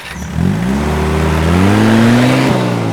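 A car driving away, its loud engine droning and rising steadily in pitch as it accelerates, with a brief dip before continuing.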